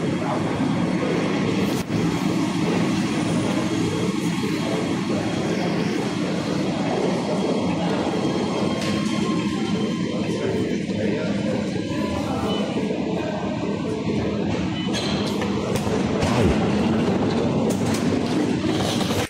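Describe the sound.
A driverless underground metro train in Nuremberg running: a loud, steady rumble and rattle of wheels on track lasting throughout, with a few sharp clicks and knocks on top.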